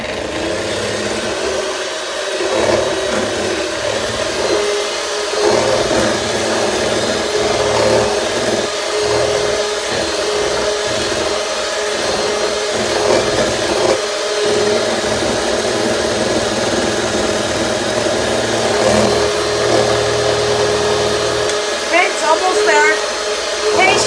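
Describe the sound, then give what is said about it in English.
Stand mixer motor whirring at speed four as it beats cream in a bowl, a continuous, loud mid-pitched drone that holds steady for the whole stretch. “And let's start the mixer again, back to four.”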